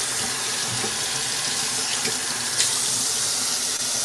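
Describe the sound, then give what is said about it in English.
Hands being washed under running tap water during kitchen cooking prep: a steady, even rush of water that continues unbroken, with no talking. “So now we're going to wash everything off. My hands, that is.”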